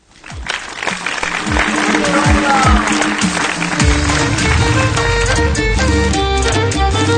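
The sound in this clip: Audience clapping at a live comedy performance, building quickly from a few claps into loud, steady applause that carries on as music enters partway through.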